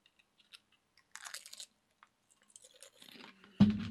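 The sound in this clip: Someone crunches Lucky Charms cereal in quiet, scattered bites and chews, with a louder crunching burst at the very end.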